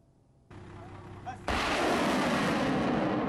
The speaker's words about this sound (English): Heavy weapons striking the hideouts of foreign-backed militants in al-Zabadani are making successful results on ground for resistance forces.